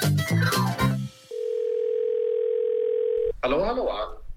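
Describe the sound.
Telephone dial tone heard while placing a call to someone: a steady, unbroken mid-pitched hum lasting about two seconds, with people talking just before and right after it.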